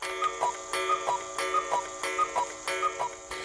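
A clock ticks at nine in the evening, with a steady, even run of many sharp, moderately loud ticks heard alone.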